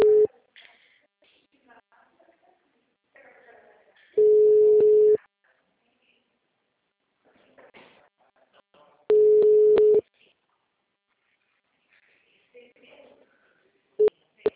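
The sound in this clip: Mobile phone call tone: two long, steady mid-pitched beeps, each about a second, several seconds apart, then a short clipped beep at the end, with faint background sounds between them.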